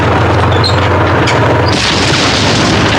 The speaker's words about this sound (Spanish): Las bombas estallan y la cadena de las ruedas queda inutilizada.